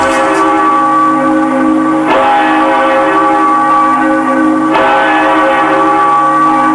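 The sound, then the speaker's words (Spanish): Church bells ring at a parish church in Tucumán: a loud, sustained, humming peal of overlapping tones that never fades, with a few fresh strikes renewing the ring along the way. No voices are heard. “Cada vez que entran y vuelven las campanas, la parroquia de la Victoria revive una historia enraizada en la fe profunda de los tucumanos.”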